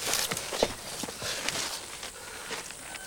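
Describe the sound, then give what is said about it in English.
Footsteps of a man walking up to a wooden-planked outhouse toilet: a few soft, uneven steps spread across the stretch, fairly quiet against a constant hiss. “Dick turns to the gang and then approaches the toilet.”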